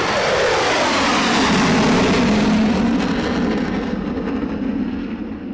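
An Avro Vulcan jet bomber takes off with a loud, sustained roar of heavy rumble and broad hiss. The roar holds steady, then slowly fades as its upper hiss drops away.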